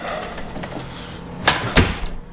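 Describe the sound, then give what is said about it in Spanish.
A door is pushed shut in an office, giving two short, sharp thuds in quick succession over a steady background hiss. “Cierra la puerta.”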